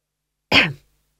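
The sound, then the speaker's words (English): A single short cough from a man, one quick burst lasting under half a second, heard alone against silence. “He coughed.”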